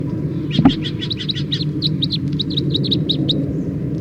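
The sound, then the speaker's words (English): Wild birds singing in a rapid run of many short, high chirps and tweets repeated throughout, heard over a steady low rumbling background. “And then the wild birds. Wild birds.”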